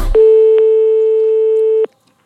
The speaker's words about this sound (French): je vais appeler le commissariat de police